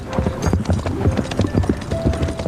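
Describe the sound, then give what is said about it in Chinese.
Horse hooves clip-clop in a quick, steady rhythm as a rider sets off on horseback. The hollow beats are fairly loud and repeat evenly throughout. “你慢点骑马，路上当心啊。”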